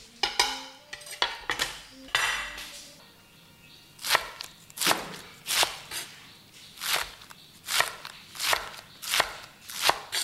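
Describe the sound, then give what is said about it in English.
A knife slices scallions for scallion pancakes. Irregular kitchen clatter comes first, then many crisp, evenly spaced cuts follow in a steady rhythm. “So let me slice these up.”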